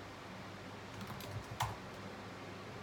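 Keys tapped on a computer keyboard while a search term is typed in: a few soft, quick clicks, faint and with no speech.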